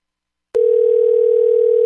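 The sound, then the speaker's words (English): A telephone dial tone on a phone line starts abruptly after a half-second of silence, then holds as a single steady, loud, unbroken tone to the end. “dialing the number. Oh, I can't hardly get to the things. I guess I'll pick up the phone.”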